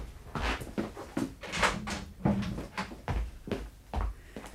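A door being unlocked and opened, heard as a quiet string of many clicks, rattles and soft thuds in an irregular rhythm.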